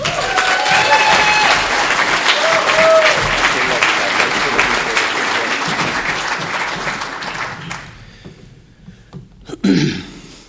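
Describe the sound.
Audience applause welcoming a visiting speaker from Oklahoma City to a twelve-step recovery talk: loud, dense, continuous clapping for about eight seconds that then dies away, with a brief short sound near the end.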